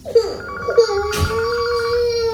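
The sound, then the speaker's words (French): A telephone rings with a loud, bright electronic tone that repeats in a regular pattern. No voices are heard over it. “répond au téléphone s'il te plaît.”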